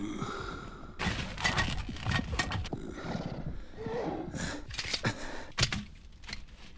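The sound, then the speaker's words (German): Horses snorting and shifting their hooves as their riders halt to rest them: a few breathy snorts over scattered clopping steps, moderately loud and with no talk. “Unsere Pferde brauchen Ruhe. Steig ab.”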